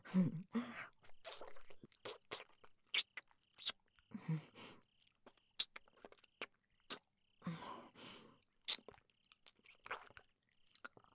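Fingers are licked and sucked with many short, wet smacking and slurping bursts separated by brief pauses, fairly faint overall.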